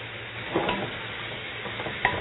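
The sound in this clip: Small pieces of tomato stir-fried in a pan for bún riêu make a steady sizzle, with a few soft stirring scrapes and a light clink near the end.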